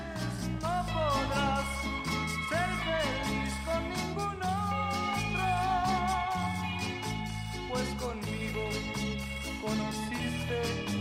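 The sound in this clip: A romantic ballad from a film soundtrack plays, with a sung vocal melody carrying noticeable vibrato over a steady, pulsing bass and rhythmic accompaniment, loud and full throughout.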